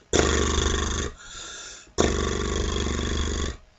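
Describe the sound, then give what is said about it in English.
A lip trill, loose lips flapping together on the exhale like an old biplane or Model T Ford, sounds as two long, low, rattling buzzes separated by a short pause. “push your lips out slightly, keep them loose, and just move air through them on your exhale. They're going to flap together and make a sound like an old biplane or Model T Ford”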